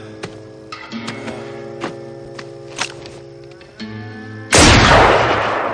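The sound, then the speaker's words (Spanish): A revolver shot bursts out suddenly and loudly after a few faint clicks and taps, leaving a harsh, sustained wash of noise in its wake. “Sin piedad, dispara a un agente que huye. Se dirige a otro que está malherido en el suelo y lo remata.”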